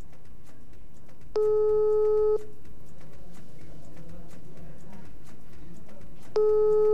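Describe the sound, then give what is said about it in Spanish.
Telephone ringing tones on an outgoing call that ends in voicemail: a steady beep lasting about a second, a pause of several seconds, then the next beep starts, over low background rumble. “Buzón de mensajes. Le voy a intentar otra vez, a marcar otra vez.”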